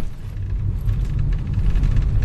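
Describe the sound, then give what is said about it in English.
A continuous low rumble heard from inside a car driving through green countryside in Bangladesh, an even engine and road drone at steady loudness with no talk. “I'm now in the car with the guys and we are driving through the beautiful, green, lush countryside of Bangladesh.”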